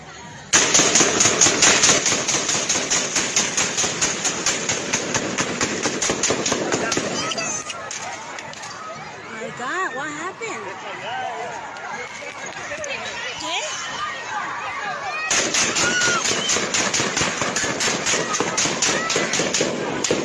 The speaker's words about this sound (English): this is a video where we hear gunfire